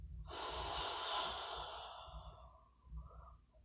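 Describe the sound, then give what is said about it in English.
A deep breath released during a grounding breathing exercise: one long, loud, breathy exhale that gradually fades, followed by a softer, shorter breath near the end. “Deep breath in. Anchor to Earth's core. And release.”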